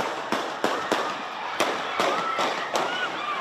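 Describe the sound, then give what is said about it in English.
Gunshots ring out during a championship celebration, several sharp cracks spaced unevenly over a few seconds, each loud and abrupt against a steady background din. “gunshots, part of the chronic gun violence epidemic surging in recent months.”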